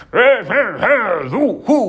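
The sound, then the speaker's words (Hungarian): Children's voices imitate dogs barking in a folk tale, producing about five voiced, bark-like calls with arching pitch, fairly loud and uneven in spacing. “Azt mondja a gyermekeinek, ugassatok, na, ugassatok.”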